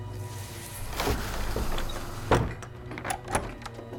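A door is shut with a sharp thud, set among a few softer knocks and rattles over a steady low rumble of wind swishing through grass outside. No voices are heard.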